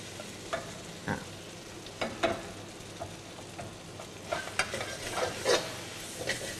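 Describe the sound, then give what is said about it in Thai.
Bean sprouts being stir-fried with sauce in a pan, giving a soft, steady sizzle broken by many irregular scrapes and clacks of the utensil as the sprouts are tossed, with no voices. “เดี๋ยวจะผัดถั่วงอกตัวนี้ให้มันสลด”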